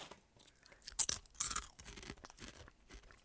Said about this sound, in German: Sauer Chips mit Sauerrahm, Geschmacksnote gibt es ja schon, Zwiebel eigentlich auch, Speck auch, glaube ich. Probieren wir mal, wie das so ist.